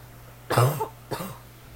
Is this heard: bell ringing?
no

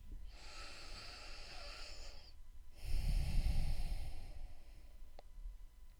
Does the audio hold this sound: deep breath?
yes

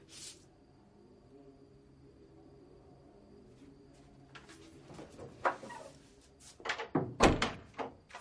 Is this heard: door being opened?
yes

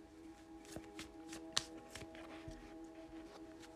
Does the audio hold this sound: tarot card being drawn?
yes

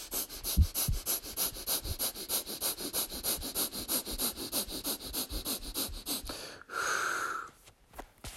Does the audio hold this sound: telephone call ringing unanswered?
no

